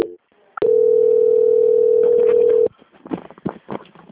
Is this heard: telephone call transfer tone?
yes

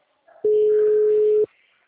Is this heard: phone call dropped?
yes

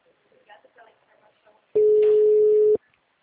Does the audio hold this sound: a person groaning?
no

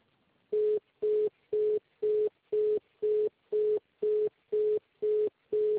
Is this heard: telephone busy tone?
yes

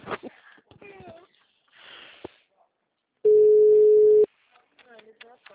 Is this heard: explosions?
no

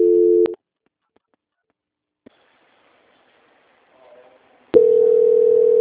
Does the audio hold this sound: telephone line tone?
yes

